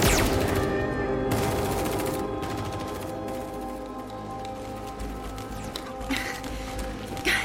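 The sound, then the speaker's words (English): Sustained gunfire from soldiers ordered to fire at will and give covering fire, a dense rattling volley of many overlapping shots that continues throughout at a fairly steady loudness. “Return fire, we'll call in reinforcements.”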